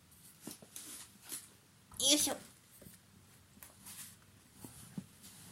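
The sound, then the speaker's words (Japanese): Rustling of a bath towel being spread out on a desk: soft, scattered crinkly brushes and swishes, mostly faint, with one louder, fuller rustle near the middle. “使うものは机とバスタオルです。よいしょ、ちょっとガサガサ音するんですけど、机にですね、”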